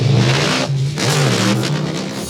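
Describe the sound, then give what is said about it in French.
A police car's engine revs as the car turns around, giving a loud, continuous mid-pitched roar that wavers slightly in pitch, with no voices. “la voiture de police fait demi-tour. Elle part à la poursuite du groupe de jeunes.”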